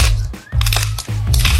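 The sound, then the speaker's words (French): A pepper mill being turned gives a few dry, rasping grinding bursts with brief pauses between them, over a steady low hum. “Et ça, c'est le poivrier, c'est quand tu tournes ton poivrier.”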